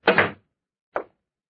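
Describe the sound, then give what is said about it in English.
A door is shut in a small wooden shack: a solid, fairly loud thud, followed about half a second later by a shorter, fainter knock as it settles. “He shut the door.”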